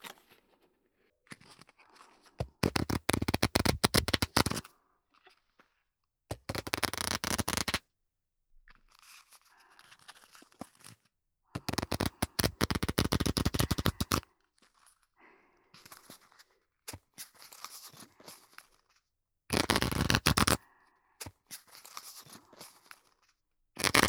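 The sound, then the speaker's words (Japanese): A deck of playing cards shuffled in showy, performance-style riffles. Several loud, crackling, fluttering bursts alternate with quieter stretches of card handling and squaring, with no talk. “パフォーマンス性を重視なら、これは覚えていかなきゃいけないマストのシャッフルなんだよね。”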